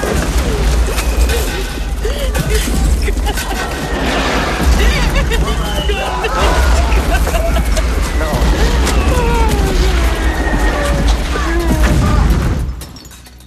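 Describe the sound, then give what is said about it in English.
Artillery shells exploding around a tent: heavy, continuous booms and crashes with a deep rumble, loud throughout with voices mixed in, then cutting off abruptly near the end. “The doctor drags the nurse down as shells rack the tent.”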